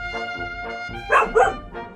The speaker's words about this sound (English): seem to have upset your dog there with my incredibly good argument, so I'm going to take this as a victory. Apparently, she's barking at a corner right now.